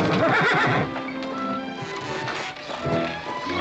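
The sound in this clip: A horse gives a loud, harsh whinny at the start, and hooves then clop and thud steadily, with scattered knocks and bumps mixed in.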